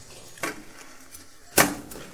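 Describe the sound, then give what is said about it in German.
A knife finely chopping a small piece of ginger, two crisp knocks about a second apart, faint and isolated against near silence. “ihr könnt da einen so ein Bällchen Ingwer nehmen. So. Den hacke ich ganz fein.”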